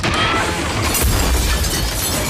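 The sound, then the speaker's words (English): A huge display cabinet crashes to the floor in a loud, dense burst of smashing noise that swells near the middle and stays rough and sustained to the end. “He dashes in and pulls her aside as the cabinet crashes to the floor.”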